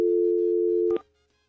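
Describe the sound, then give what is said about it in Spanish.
Telephone tone while dialing a caller: a single steady, plain tone held for about a second, cut off by a couple of clicks before near silence. “Estamos marcando ya, ¿ok? Está sonando, vamos a ver si nos responde,”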